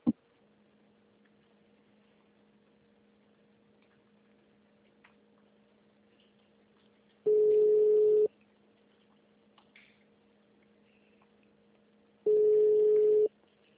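Ringback tone of an unanswered, transferred telephone call: two long, steady beeps about five seconds apart over a faint, constant line hum.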